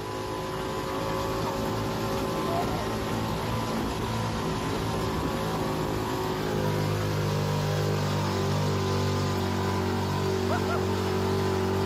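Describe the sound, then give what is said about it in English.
Steady engine drone of a vehicle on a desert dune ride over moguls, a loud, continuous low rumble that barely changes in level throughout. “And so we experienced the full experience of that dune ride. We experienced the full experience of the mogul. And we actually caught it on video, and I want to show you guys exactly what that was like.”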